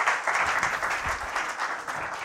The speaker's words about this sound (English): Give them a round of applause. Appreciate that, guys.